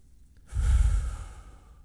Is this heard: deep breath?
yes